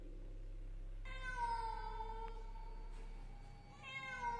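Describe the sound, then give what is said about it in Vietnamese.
A cat meows mournfully in one long, drawn-out, wavering cry, then begins a second meow after a short pause, over a steady low hum. “liền sau đó là tiếng mèo kêu lên, âm thanh nghe ai oán não nề.”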